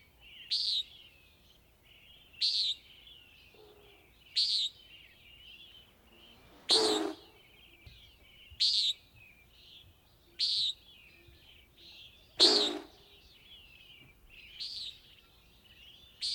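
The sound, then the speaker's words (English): A common nighthawk gives a regular series of short, high, buzzy calls, each separated by about two seconds of quiet, clear and alone against a faint background. “Which is a common nighthawk, although it is a bird of dawn and dusk, and it is not related to hawks.”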